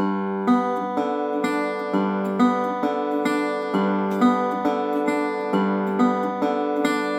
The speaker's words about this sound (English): When your thumb hits the low G string, your index finger is then gonna hit the B string. When your thumb hits the middle D string, your index finger is gonna hit the high D string.